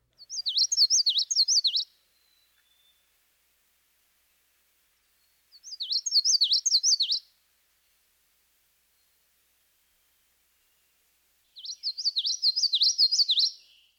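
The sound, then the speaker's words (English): Yellowthroat song variation: three separate bursts of high, warbling, connected notes, each lasting about two seconds and separated by silence. “The notes of the yellowthroat's vocalization are normally connected, and this gives a rolling quality to his song.”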